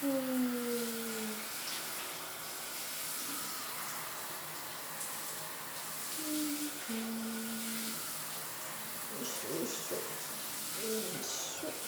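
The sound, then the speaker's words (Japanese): Shower water spraying as someone is lightly rinsed off, a steady broad hiss throughout, with voices speaking over it at times. “まず シャワーで軽く流して”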